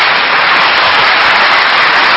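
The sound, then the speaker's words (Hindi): Crowd clapping at a religious gathering to applaud the mothers, a loud, dense and unbroken roar of hands that sounds dull and muffled, holding at the same level throughout. “ताली बजाओ ना इन माताओं के लिए।”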